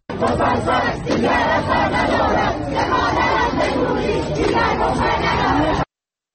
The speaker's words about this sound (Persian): بشنویم صدای دانشجویان در دانشگاه نوشیروانی بابل.